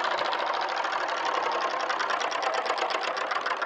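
A game spinner is spun, giving a fast, dense rattling that clicks steadily and evenly for the whole stretch without slowing, with no voices over it.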